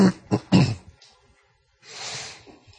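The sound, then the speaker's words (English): Throat clearing: a few short, rough, guttural bursts in quick succession, followed after a pause by a longer, softer, breathy rush of noise. “Hopefully you won't be too distracted by throat clearing.”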